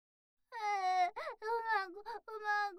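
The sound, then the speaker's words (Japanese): Whimpering, tearful crying from a voice on the verge of sobbing: several wavering, high, breaking vocal bursts with short gaps between them, heard on its own. “ほーらほーら、泣かないの。”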